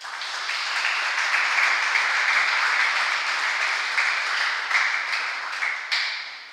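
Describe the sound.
An audience applauds to welcome a priest to speak, a dense, steady wash of many hands clapping that holds for several seconds and thins slightly near the end with a few sharper individual claps.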